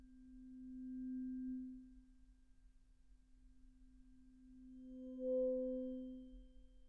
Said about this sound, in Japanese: こうして音叉の音色に耳を傾けていると、だんだんと心の波形もまっすぐに静かに落ち着いていきませんか？